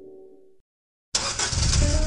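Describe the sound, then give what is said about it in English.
Old car engine, heard as a short low hum, a brief silence, then a loud, rough, steady roar that holds to the end. “When was the last time you drove that old clunker?”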